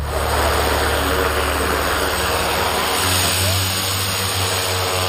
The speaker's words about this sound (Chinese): 对，无人机可以起飞。